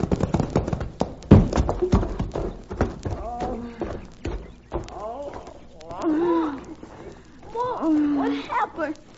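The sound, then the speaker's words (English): Horses' hooves gallop on a sun-baked road as a panicky team pulls a wagon: loud, rapid, clattering hoofbeats, followed by strained, pitched cries over continuing hoof sounds. “their hooves pounded on the sun-baked road like war-maddened Indians on their drums”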